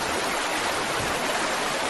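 Water flows into an irrigated vegetable bed: a continuous rushing, hissing stream at an even level, with no talk.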